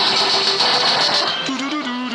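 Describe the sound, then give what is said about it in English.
Electronic game sounds from a Vulgus arcade cabinet, a vertical shooter being played in an arcade: a steady high beeping tone runs through the first half, then a lower buzzing tone shifts up and down in steps. “They have got a Vulgus. I'm playing that. Can you hear it?”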